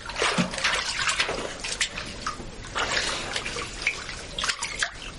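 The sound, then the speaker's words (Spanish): Water splashes in a bathtub as a girl sits in muddy brown water and washes her face. Irregular splashes, drips and trickles continue throughout at a moderate level. “Se lava la cara. El agua tiene color marrón.”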